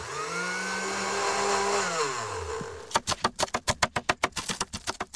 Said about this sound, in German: Ich schneide mal eine Gurke mit rein.